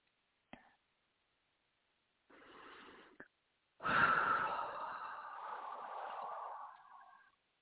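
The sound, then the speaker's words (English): A deep breath is taken during a guided breathing exercise: a soft, short breath is followed by a longer, louder sighing release that trails off. It is faint overall, with a couple of small clicks and no talk. “Take one more deep breath that way.”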